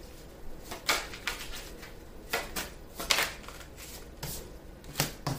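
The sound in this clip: Playing cards are shuffled and drawn during a card reading. Crisp papery riffles and soft slaps come in a series of irregular bursts, with a faint rustle between them and no talk.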